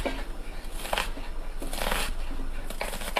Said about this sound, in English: I decided to chop up the vegetables the old-fashioned way with a knife and cutting board.